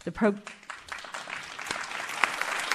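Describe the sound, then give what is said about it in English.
Applause from a live audience in the Nancy B. Hammond Hall of the Winspear Opera House in Dallas: a short vocal cry rises at the start, then dense, steady clapping fills the rest, growing slightly louder toward the end. “We have a live audience, as you can hear, at the Winspear.”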